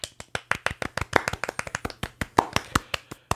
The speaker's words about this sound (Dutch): Dames en heren, jongens en meisjes, nog een applausje voor Anna.